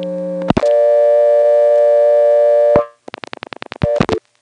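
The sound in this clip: Telephone exchange tones after dialing the digit 8: a click opens a loud, steady tone lasting about two seconds, followed by a quick series of short beeps and a few more clicks and tone bursts.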